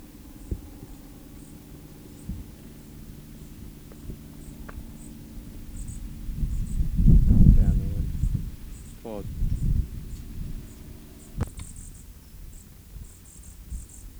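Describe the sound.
Faint, high chirps of a bird chick call again and again outdoors, among dry grass below an oak tree. The thin, regular calls repeat throughout over a low, rumbling background.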